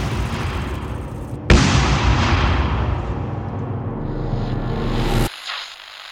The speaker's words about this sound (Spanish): Habían pasado 17 días desde la inauguración y a balazos intentaron silenciarlos.